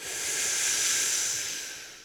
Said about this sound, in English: There, look, I took a deep breath. Here, take a deep breath with me.